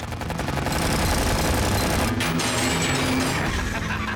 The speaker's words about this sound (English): Again, this is all real machine gun fire. We went through a phenomenal amount of ammunition.